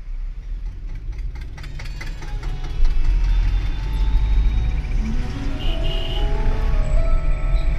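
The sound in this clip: A car driving out of Delhi early in the morning toward Gorakhpur: a steady, loud engine drone with a low rumble, rising slightly in intensity partway through, with no talk.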